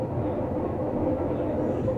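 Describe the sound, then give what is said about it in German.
A passenger train crossing the Noce river in the Val di Non valley: a steady, low, rolling rumble of wheels and carriages that stays even throughout, with no voices. “Im Nonstal, dem Val di Non, hat der Zug eine wichtige Funktion.”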